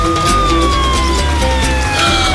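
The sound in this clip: A loud police car siren wails during a chase, its tones sliding steadily downward in pitch across the whole clip, with a low rumble beneath.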